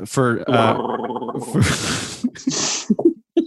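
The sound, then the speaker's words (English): Gargling with a mouthful of coffee: wet, bubbling throat gurgles mixed with voiced tones, running through a long stretch of churning noise and ending in a few short, choppy bursts. “Well, I want to gargle with some coffee.”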